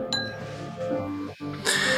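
Glasses clink together in a toast, giving a sharp, bright, ringing chime that stands out over a steady, lower background.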